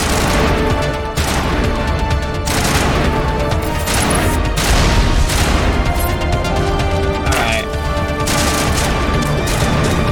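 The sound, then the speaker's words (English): Rocket explosion amid battle noise in a shooter video game with rocket troopers and an auto gun. Loud, dense booms and weapon fire run continuously, with repeated sharp impacts layered over a sustained tonal backdrop. “Oh boy, that was a rocket right in the face of us.”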